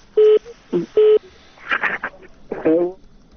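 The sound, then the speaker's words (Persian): Telephone tones as a listener's call comes in to a radio call-in show: two steady beeps with a short blip between them, followed by brief talk on the line. “فکر کنم تلفنی تماس تلفن دوم بگیریم. بله شنونده عزیز بفرمایید.”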